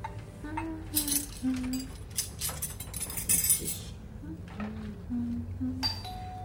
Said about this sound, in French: Tu me passes les couverts, s'il te plaît.